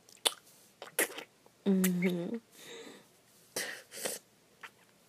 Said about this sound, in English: I was spitting saliva, sorry, I got my throat lubricated.